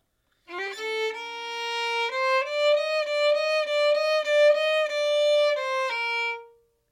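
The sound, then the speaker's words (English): The first two measures of a klezmer tune are played plainly on a single melodic instrument without ornaments: a short sequence of clean, sustained notes that steps upward early on, moves through several held tones, and drops lower before ending. “Without the phrasing or ornaments, the first two measures would sound like this.”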